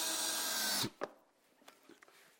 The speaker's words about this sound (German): und nehme nochmal einfach 2 Schrauben. Habe ja Schrauben nur übrig. Einen Akkuschrauber habe ich auch.